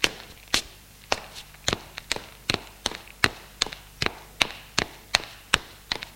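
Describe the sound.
Footsteps climbing stairs to the upper floors of a house, many crisp, evenly paced steps, each a sharp knock, fairly quiet and steady throughout, with no voices.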